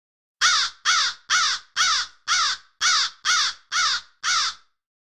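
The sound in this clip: Crow cawing: nine loud, harsh caws evenly spaced in a steady rhythm, each a short raspy call with no other sound between them.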